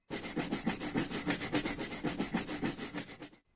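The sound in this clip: Scrubbing to clean off dirt: brisk, steady back-and-forth rubbing with many rhythmic rasping strokes at an even pace, heard alone, stopping abruptly at the end.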